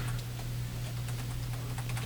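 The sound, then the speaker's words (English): Computer keyboard typing while a fishing report is drafted: many light, quick key clicks over a steady low hum. “I type along trying to get the basic ideas on the written report.”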